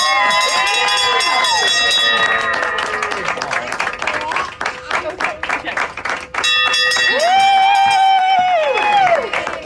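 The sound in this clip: A bell rung to mark the end of chemotherapy clangs repeatedly amid clapping. Loud cheering and whooping voices rise around it.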